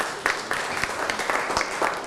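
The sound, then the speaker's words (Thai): Schoolchildren clap their hands in a classroom to applaud a classmate's correct answer. The claps come in a steady, fairly fast rhythm at moderate volume throughout. “ถูกต้องปรบมือให้เพื่อนหน่อยครับ”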